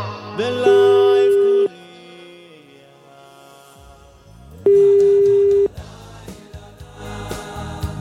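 Ringback tone of a phone call that goes unanswered: two long, steady mid-pitched tones, each lasting about a second and separated by a few seconds, heard over music.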